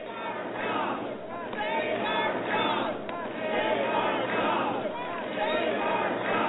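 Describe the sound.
Crowd noise at an Energy Citizens Alliance rally over the Waxman-Markey climate bill, held during the August congressional recess: a dense, steady wash of many overlapping shouting and cheering voices that stays loud throughout.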